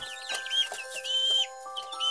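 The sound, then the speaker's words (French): Four little chicks peeping: thin, high chirps repeated quickly in uneven clusters, over steady sustained background tones. “Zouzou regarde les quatre petits poussins.”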